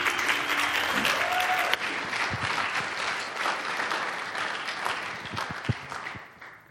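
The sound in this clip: An audience applauds to welcome a young speaker about to share stories from a mission trip to Belize. The dense clapping is loudest at first, then gradually thins and fades toward the end.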